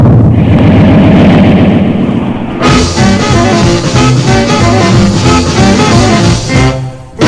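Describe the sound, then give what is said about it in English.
Rocket launch blast-off effect: a loud, deep rumbling roar that suddenly bursts into a denser, brighter blast partway through, then keeps thundering steadily to the end. “3 seconds, 2 seconds, 1 second, blast off!”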